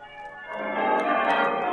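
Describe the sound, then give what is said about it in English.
Town church bells peal in a sustained wash of overlapping ringing tones that swells slightly and stays steady throughout. “Bright, shining morning, and the bells of the town pealing out there beyond his window.”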